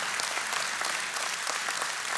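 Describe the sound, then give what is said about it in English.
Congregation clapping during a church healing service: a soft, continuous patter of many hands that stays level from start to finish, with no speech or shouts breaking through. “What I want the rest of you to do is I want you all to clap right now”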